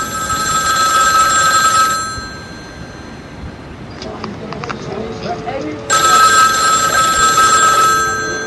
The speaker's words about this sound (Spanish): Dile que coja el teléfono.